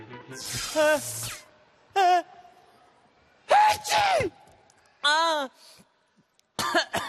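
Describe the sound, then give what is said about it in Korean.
A voice acts out coughing for a cartoon character with a cold: several harsh, throaty, voiced coughs come in separate bursts with quiet gaps between them. “아, 왜 이러지? 아, 자꾸 기침도 나고”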